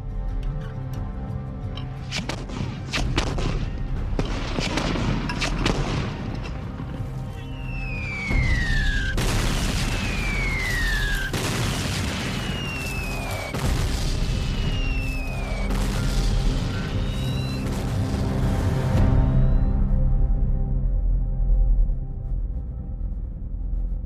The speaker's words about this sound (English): On January the 10th, all of the guns were in place for the final earth-shaking bombardment.